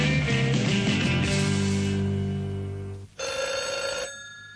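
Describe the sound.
A telephone rings in sustained tonal bursts, breaks off in a short gap, then rings once more briefly before stopping; no voices.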